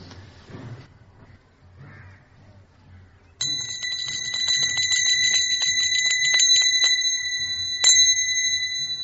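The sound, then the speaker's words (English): A bell rings quickly and steadily during a devotional chanting session, with bright, sustained metallic strikes. It starts suddenly after a few quiet seconds and keeps going, with one louder stroke near the end. “When you hear the bell ringing,”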